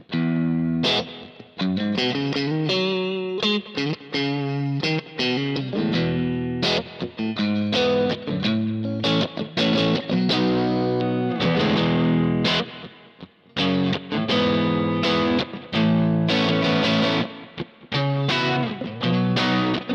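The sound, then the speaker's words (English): Distorted electric guitar through a guitar speaker, miked with a Shure 57, plays loud, continuous chords and riffs with short gaps between phrases and a layered, effects-heavy tone. “because let's listen to what just the 57 sounds like on this speaker. You're really in for this now. Listen to this. Listen how different this will sound.”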